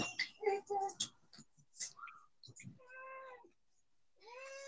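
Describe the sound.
Cats meow for food, with two drawn-out, clear meows in the second half following a stretch of human talk and short household noises.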